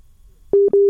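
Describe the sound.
Telephone busy signal on a call-in line: two loud, steady single-pitch tones separated by a short gap, the second cut off at the end, following faint low noise.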